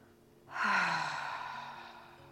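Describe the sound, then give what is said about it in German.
A deep exhale after a breath through the nose, part of a guided relaxation exercise, rushes out as a single long breathy sigh that starts strongly and slowly fades, with no talking. “Einen tiefen Atemzug durch die Nase einzunehmen. Und dann lösend auszuschnaufen.”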